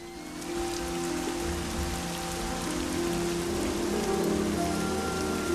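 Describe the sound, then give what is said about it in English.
Torrential rain pours down in a dense, continuous hiss of countless drops striking the ground, loud and steady throughout with no voices. “Katie rides Flicker in torrential rain.”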